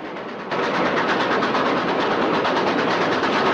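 Moving passenger train carriages give a dense, steady rumble and clatter that swells after the first half second and then holds loud and even to the end.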